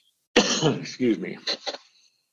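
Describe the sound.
A person clears their throat in a few rough, raspy bursts that fade out after about two seconds.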